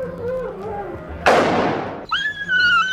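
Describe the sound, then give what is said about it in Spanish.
An arquebus fires once at a dog in a Spanish-language audio drama. The single loud blast bursts in sharply and decays over roughly a second, with voices and tonal sounds before and after it. “disparó sobre el perro que cayó rodando en el suelo.”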